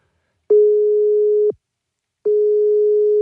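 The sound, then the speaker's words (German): Telephone ringback tone heard while a call is being placed, two long steady mid-pitched beeps separated by a short silence, the second cut off at the end, clean and alone. “Da rufen wir jetzt mal wieder an.”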